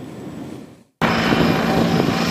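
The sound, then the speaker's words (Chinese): Army brigade helicopters of several types lift off in sequence for tactical training, giving a loud, dense engine and rotor roar. A softer roar fades into a brief silence, then a full-strength steady roar cuts in and continues. “接到命令，各型直升机依次升空，乘战术编组飞赴预定空域。”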